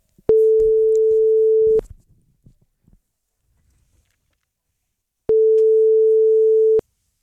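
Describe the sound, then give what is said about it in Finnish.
Telephone ringback tone while calling a listener's number: two long, steady, mid-pitched beeps of about one and a half seconds each, separated by a long silence, with faint clicks after the first. “Ja nyt meillä on täällä yhden kuuntelijan numero laitettu valmiiksi. Ja katsotaan, että vastaako hän.”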